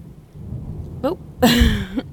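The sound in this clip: A thunderstorm with rain during a power outage: a steady, faint rain hiss with a low rumble of thunder, and a brief voice breaking in over it.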